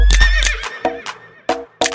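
A horse whinnies at a horse auction, a wavering, high neigh during the first half-second, followed by a few short, sharp bursts.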